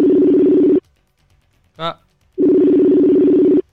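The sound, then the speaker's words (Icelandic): Telephone tones play while a call is being placed: two long, loud, steady low-pitched buzzing tones separated by a pause, with a brief voice sound in the gap. “Og þá bara komið að þessu, ég ætla að hringja í aðal kappan það Þórhallur Dan Jóhansson”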